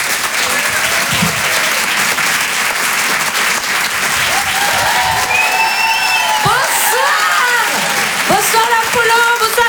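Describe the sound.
An audience at the Apollo Théâtre comedy club in Paris bursts into loud, continuous applause, with scattered cheers and whoops rising above the clapping toward the end.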